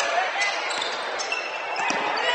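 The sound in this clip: A basketball being dribbled by a Fairlawn player in a game against Lehman: a few dull bounces under continuous crowd noise, with no clear regular rhythm.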